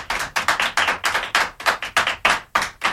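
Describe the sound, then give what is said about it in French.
Children applauding in a fast, even rhythm, with about a dozen sharp, bright claps closely grouped into a short, loud burst and no voices over them. “les enfants vous applaudissent. Je ne sais pas si vous les entendez. Oui, je les entends, en effet.”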